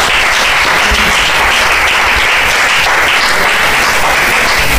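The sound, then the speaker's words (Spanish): A church audience applauds during a service, a loud, thick and continuous roar of many clapping hands with occasional low thumps, sustained evenly from start to finish without any speech. “Ahora denle un aplauso al Señor por esto,”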